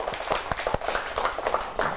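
Children clap for a classmate's correct answer in class. The claps are fairly faint, scattered and uneven rather than a steady round.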